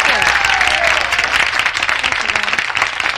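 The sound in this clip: Loud audience applause at the Grand Ole Opry welcoming country singer Loretta Lynn, a dense, steady wash of many hands clapping that holds evenly for the whole stretch.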